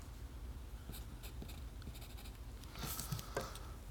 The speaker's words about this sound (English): I think I need to write softer, but it's just not in me.